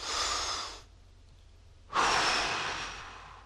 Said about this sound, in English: I want you to take a deep breath, hold it for 1 second, and exhale, okay?